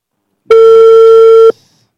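A single steady electronic ringback tone sounds on an outgoing telephone call: one loud, even beep lasting about a second with a bright harmonic edge, alone without talk.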